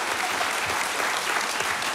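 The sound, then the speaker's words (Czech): Steady applause from an audience in Havlíčkův Brod welcoming guests at a touring radio show, a dense, even patter of many hands clapping at moderate volume without pause. “Takhle vám tleská Havlíčkův Brod.”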